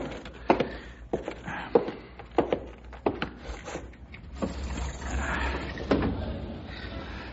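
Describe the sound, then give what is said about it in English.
A wooden window being opened on a hot day: many sharp wooden knocks and clacks in an uneven rhythm, then a softer, continuous sliding rumble toward the end. “Wonder why I didn't open the window.”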